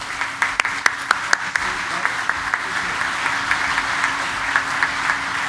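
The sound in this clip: Applause rises from an Oshkosh audience welcoming a speaker to a pilots' gathering. A few sharp, separate claps stand out at the start before the clapping settles into a steady, even patter for several seconds.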